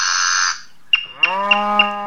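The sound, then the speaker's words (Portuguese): An ox, the show's own animal, gives one loud, drawn-out, low moo with a rich, buzzy tone that holds steady to the end, following a brief burst of noise. “Esse é bonitão, viu? É o boi daqui do Bom Dia Verdes Campos.”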